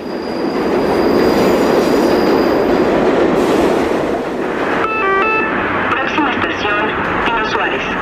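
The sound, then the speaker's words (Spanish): A Mexico City metro train rolls through with a steady rumbling roar, then high squealing wheel tones and rhythmic clatter in the second half. A voice is faintly present at times. “Quien ha vivido en la Ciudad de México sabe que un día sin escuchar la voz del metro es casi imposible. El metro es un viaje subterráneo donde los sonidos nos recuerdan que esta ciudad nunca se detiene.”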